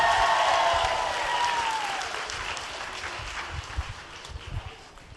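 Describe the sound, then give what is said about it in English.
An audience applauds a performer with dense, steady clapping and crowd noise that eases slightly in level, then picks up with a few louder bursts toward the end. “Come on, y'all, give it up for Miss Pamela Jackson.”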